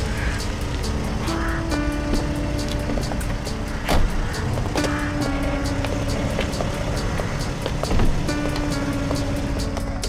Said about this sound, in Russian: Иномарка подъезжает к месту встречи.